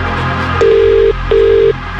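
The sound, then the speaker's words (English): Ringing tone of an outgoing telephone call: two steady, mid-pitched electronic tone bursts, each about half a second long, separated by a short gap, loud and clear over a faint background hum. “We're making this call right now. And you need to answer within five rings.”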